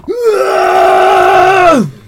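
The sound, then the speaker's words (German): A player in a tabletop role-playing game lets out a single loud, drawn-out scream of frustration. The voiced cry rises quickly, holds a steady pitch for almost two seconds, then drops away. “Möchtest du einen Schrei der Frustration rauslassen?”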